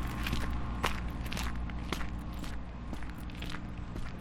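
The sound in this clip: Footsteps walk steadily along a path on a sunny winter day on the way to a zoo. The regular, quiet steps sit over a low, steady background hum, with no voices.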